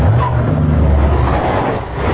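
Car rumbling as it comes to a stop during a drive to the airport, a loud, steady road and engine noise that dips slightly near the end.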